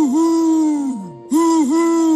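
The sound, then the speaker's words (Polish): An owl hoots as it tries to sing, producing loud, sustained warbling tones. The first tone slides downward and fades, then after a short gap the hoot resumes with small wavering dips in pitch. “Nie umiem śpiewać. Sam zobacz. Sowa Zosia nadęła się i wydała z siebie.”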